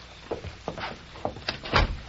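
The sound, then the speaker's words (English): An office door being tried and then opened: a series of sharp clicks and rattles from the handle and latch at irregular intervals, growing louder, with the strongest clatter near the end. “I'll try the door.”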